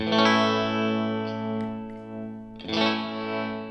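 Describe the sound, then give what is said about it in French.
An A major chord rings out under a slow sine-wave tremolo, its volume swelling and dipping gently. The chord is struck again partway through and keeps sustaining richly. “si je plaque un accord de La majeur avec une sinusoïde très peu serrée.”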